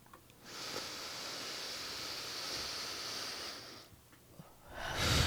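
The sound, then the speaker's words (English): A slow, deep breath: a long, airy rush of air lasting about three seconds, then a pause and the start of another breath. Faint and alone, with no voices. “right now, let's all take a deep breath together.”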